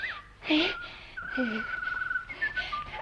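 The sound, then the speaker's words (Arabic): Karawan (stone-curlew) bird call in a radio drama: clear whistled tones, one long sustained note held for over a second, with shorter sliding whistles before and after. A voice-like sound is also present. “يا خبر، ده الطير الكروان. اما استخبى هنا ورا اللوان واشوف الكروان ده ايه.”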